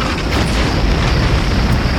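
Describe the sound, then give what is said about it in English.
Mortar and mine explosions during an attack merge into a dense, loud rumbling roar that rolls on without pause, with no separate blasts standing out. “Mines. Those were mines. Mortars. Close. Those were our mortars.”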